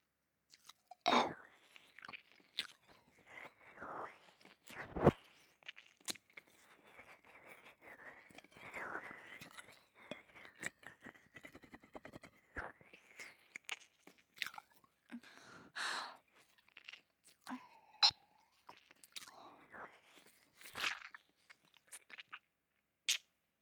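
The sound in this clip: Ear licking and wet mouth sounds right at the microphone: many irregular smacks, slurps and clicks come in clusters across the whole stretch, mixed with soft, breathy, whisper-like noises.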